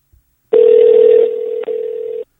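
A telephone dial tone sounds while a call is placed: one loud, steady, mid-pitched tone lasting under two seconds with a brief break near its end, heard alone.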